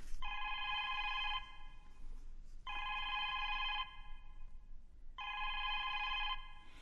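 A telephone rings alone in three long, steady electronic bursts, each about a second long and evenly spaced with pauses between them.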